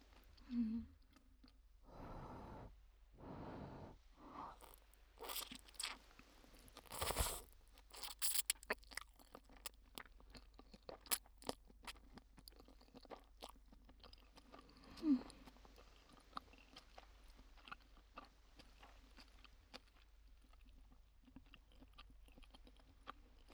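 Crunchy dried vegetables being chewed, many faint, crisp crunches in irregular bursts separated by quieter pauses.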